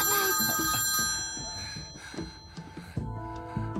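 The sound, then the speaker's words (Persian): A telephone rings while a call is being placed, a bright, bell-like ringing that is loudest at first and then continues more softly in a few repeated bursts. “میرم به ریچارد زنگ میزنم.”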